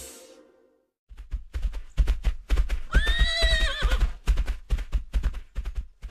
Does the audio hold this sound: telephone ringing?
no